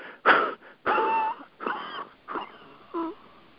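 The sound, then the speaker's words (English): Forced exhalations driven from the diaphragm: a series of wheezy, partly voiced bursts of breath, each pushed out hard and then cut off, with short quiet gaps between them. “And when you feel like you've reached the end, you kind of push in on the diaphragm, and you kind of force any bit of air out.”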